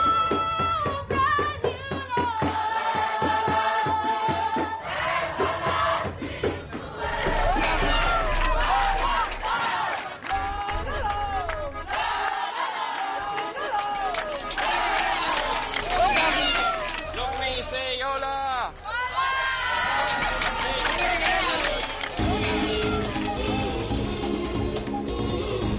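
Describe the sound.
A crowd of rescued migrants cheers and shouts on arriving at the port of Valencia, a loud, dense mass of voices that holds steady for the whole stretch.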